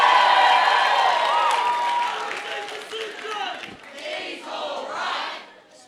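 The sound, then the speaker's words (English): A youth crowd at an evening church youth gathering shouts and cheers in a loud, sustained roar of many voices, then it thins into scattered yells and whoops as it fades near the end. “give me a shout if you love your youth pastor or your leader. Let me hear it.”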